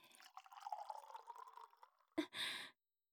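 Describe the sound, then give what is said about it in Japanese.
Sake poured between a woman's breasts in a faint, gurgling trickle, followed by a sharp click and a short burst of splashing noise. “胸の間にお酒を注いで、”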